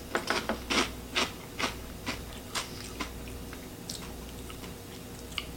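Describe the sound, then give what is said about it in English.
Crunching of spicy corn snack pieces being chewed: many crisp, dry bites, loudest and closest together at the start, then spacing out into fainter chews with no talk. “These look like the spicy, so I'm gonna try the spicy pieces here.”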